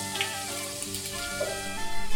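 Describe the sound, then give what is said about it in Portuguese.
Garlic browns with bacon in a pan, giving off a continuous frying sizzle that holds fairly steady and swells slightly louder toward the end. “a gente adiciona alho, deixa dourar um pouco junto com o bacon, reserva.”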